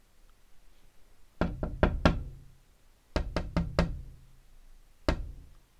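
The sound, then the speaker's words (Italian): Knocking on a door at daybreak: two quick runs of four sharp, loud knocks, then a single knock, each standing out against a quiet background. “sul far del giorno si svegliò perché qualcuno aveva bussato alla porta.”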